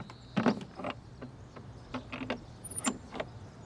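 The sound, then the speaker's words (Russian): A young woman shuts a window by a windowsill scattered with grain: several brief scraping, clunking mechanical sounds spread across a few seconds, moderately loud, with no talk. “Девушка прислушивается. Йен насвистывает. Девушка закрывает окно.”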